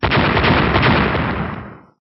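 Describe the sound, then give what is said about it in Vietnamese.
Loud explosions boom across the sky, a dense roaring rumble of blasts that holds strong and then trails off at the end. “Liên tiếp những tiếng nổ lớn vang lên chấn động bầu trời.”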